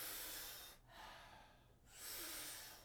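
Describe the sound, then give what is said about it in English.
A breathwork demonstration: a powerful, airy breath in through the mouth, then a softer relaxing breath out, then another strong inhale. The rhythm is even and fairly quiet, with no voices. “we're gonna be doing about 40 powerful breaths into the body through the mouth. The exhale is a nice, soft, relaxing exhale. We do it rhythmically, we do it together, and it sounds like this.”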